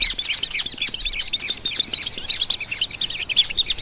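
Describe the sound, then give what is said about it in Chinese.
Newly hatched nestlings chirp hungrily for food. Many rapid, high-pitched cheeps overlap in a steady, busy chorus with no voices. “刚出壳的小宝贝们已经饥肠辘辘，不断叽叽喳喳地表明这一点。”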